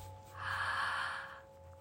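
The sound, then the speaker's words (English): A deep breath is drawn in through the mouth held open in an 'ah' shape. It is a single airy, breathy inhale that swells and then fades, faint and without speech. “we're going to breathe in through that ah shape, as if you are biting into an apple. Deep breath in.”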